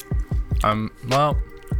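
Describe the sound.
Someone chews a German Snickers bar: soft, wet, squishy low thumps in a steady rhythm, interrupted by two short hummed voiced sounds.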